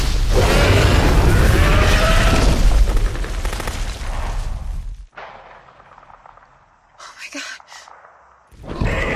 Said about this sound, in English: The Indominus and the raptors run from a hail of bullets. A rocket explodes at the Indominus's feet.